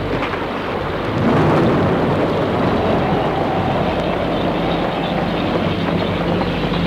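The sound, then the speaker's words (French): A night thunderstorm: a continuous, loud, deep rumble of thunder blends with a steady wash of rain, holding an even level throughout without distinct breaks. “Et l'orage.”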